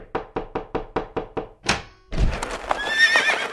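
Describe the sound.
A horse neighs in a dentist's office, the racehorse brought in as a patient. A quick run of about seven hollow hoof clops comes first, then a thump, then a loud, bright whinny that trembles on alone.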